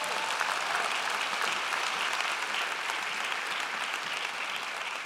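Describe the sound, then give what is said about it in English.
Sustained applause from a church audience, a dense, even clatter of clapping that holds steady at a constant level for the full five seconds with no voices standing out. “Would you give them another hand and thank them?”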